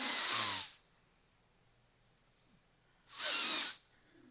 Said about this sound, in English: Breathe in. Come on. Take a deep breath with the nose.